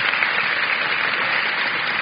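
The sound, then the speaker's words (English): Congregation clapping hands during a church service, a loud, dense, unbroken burst of applause that holds steady from start to finish. “Give God a hand clap.”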